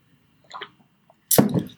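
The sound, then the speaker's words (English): A person takes a drink of water, a soft faint sip followed by a louder, wet gulping burst in otherwise quiet surroundings. “I'm about to take a drink of water after that sermon.”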